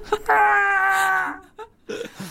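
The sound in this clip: A voice imitating a man screaming as he falls off a tower: one long, sustained wailing cry held for about a second, then a few brief, rougher vocal sounds after a short pause.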